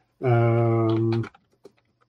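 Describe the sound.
Typing on a computer keyboard: after a short voiced sound, a few light, scattered key taps follow, faint and irregular.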